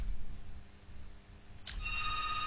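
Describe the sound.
A telephone ringing as a call is connected, heard late after low steady hiss: a bright onset followed by a held, high, multi-toned ring running to the end.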